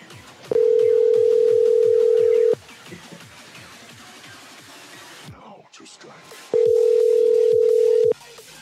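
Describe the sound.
An outgoing call to a cell phone rings back as two long, steady, even-pitched tones about four seconds apart, with faint voices in the background.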